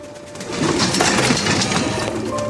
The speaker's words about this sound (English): Koppel, Fritz and Max are there as they watch as the cage bottom is slid from beneath the pigeons, sending them into the chamber.